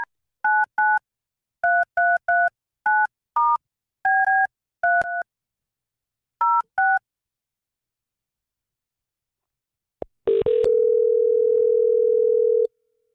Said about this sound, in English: All right, you dial 011.